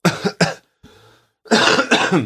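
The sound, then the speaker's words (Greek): Harsh coughing from a person choking mid-sentence: two sharp coughs, a short quieter breath, then a longer, loud run of coughs. “Με το που το είπε, πνίγηκε, γιατί δεν το ένιωθε αυτό.”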